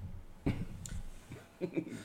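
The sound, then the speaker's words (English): A few quiet coughs: one sharp burst first, then a softer pair of short coughs a little later, with faint breathing between them. “Oh, Lord Jesus, I'm sorry for coughing. That's going to sound awful.”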